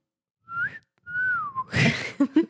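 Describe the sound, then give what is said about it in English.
A person whistles two melodic phrases, the first short and the second a longer tone that slides downward, followed by a few short noisy bursts. “practicing my whistling”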